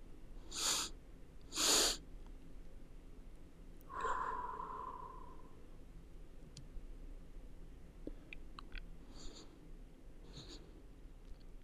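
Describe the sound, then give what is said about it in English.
Breathing exercise: two sharp, short inhales through the nose, then one long, breathy exhale through the mouth. The breaths are quiet, with no talking. “do a breathing practice. You ready? So it starts off with two inhales through your nose, one big exhale through your mouth.”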